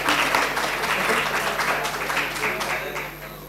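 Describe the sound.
Applause from a class audience after student presentations: dense, steady clapping that holds throughout and eases off slightly toward the end.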